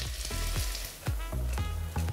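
Leeks sizzling in butter in a pan, sweated as a side for pike-perch. A soft, steady frying crackle runs throughout, broken by several sharp clicks or knocks, at a fairly low level.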